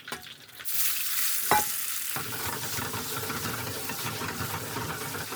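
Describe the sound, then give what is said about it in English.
Gnocchi sizzle as they fry in browned butter in a skillet that is kept moving. The loud, steady hiss of frying runs throughout with one sharp knock partway through, and no talk. “Keep that skillet moving at the beginning. Gnocchi. As long as you use enough butter, it shouldn't stick.”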